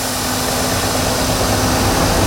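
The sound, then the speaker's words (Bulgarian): A municipal water truck engine runs while the truck sprays and cools the streets of Yambol during a heat wave. It makes a loud, steady, unbroken rumble with a constant low hum. “За спасение от жегата общината пусна камиони с вода, охлаждат улиците и се диша по-леко.”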